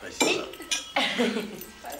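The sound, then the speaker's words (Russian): Glasses clink in a toast at a family celebration for a medal award, a few bright, sharp clinks over light tableware clatter. “Поднимают бокалы, пьют.”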